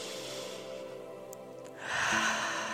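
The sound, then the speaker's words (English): A deep breath drawn in during a guided exercise centred on the womb: a faint, quiet stretch followed by a sudden breathy rush of air that holds to the end. “and to take another deep breath all the way down into your womb space.”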